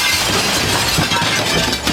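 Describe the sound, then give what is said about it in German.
A 4 mm standard-glass window pane smashed in during a break-in test: loud, dense crashing and tinkling of shattering glass that runs continuously for the whole stretch, with no talk. “Na dann schlag ich die Scheibe doch einfach ein.”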